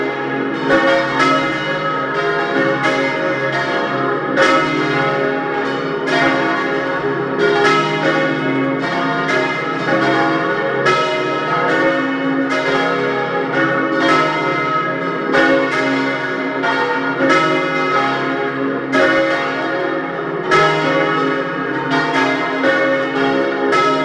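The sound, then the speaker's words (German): Church bells of the parish church of St. Martin in Dölsach near Lienz, East Tyrol, ringing at noon. Several bells peal together in steady, overlapping strikes that ring continuously and evenly throughout, with no voices. “Sie hören die Glocken der Pfarrkirche zum heiligen Martin in Dölsach bei Lienz in Osttirol.”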